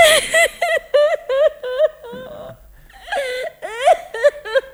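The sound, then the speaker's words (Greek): A woman cries and sobs in a run of short, wavering wailing bursts, then pauses briefly before more strained, rising sobs follow, loud and alone. “Έτσι είναι, αγάπη μου. Κλάψε, γλυκιά μου. Ναι, έτσι πρέπει.”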